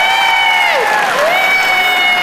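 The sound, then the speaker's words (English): An audience applauds in a steady, loud burst, and a high sustained cheer glides over the clapping. “How many people here by applause are 40 or younger? 40 or younger, applaud.”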